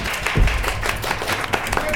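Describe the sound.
Audience applause at a college panel event: dense clapping with a few sharper, louder claps standing out from the steady patter.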